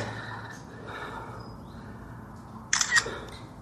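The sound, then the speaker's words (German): Camera shutter clicks sharply as photos are taken: a couple of quick, crisp mechanical snaps near the end, standing out over a faint, steady background hiss. “ich werde hier mal ein paar Fotos machen”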